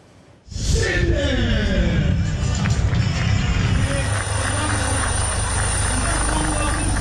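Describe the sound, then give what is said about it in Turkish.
Loud, sustained roar of aircraft making demonstration flights at an air force anniversary festival. It starts abruptly after a brief quiet moment, with tones that fall in pitch early on, then holds as a steady, broad rumble. “Uçaklar ve helikopterler gösteri uçuşları da yaptı.”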